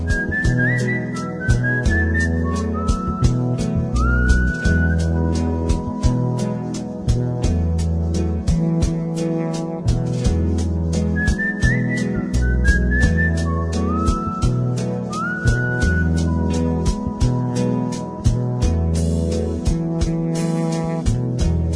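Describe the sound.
Melodic whistling carries the tune in a song with piano and acoustic guitar. The whistled phrases glide in short runs over steady chords and plucked notes.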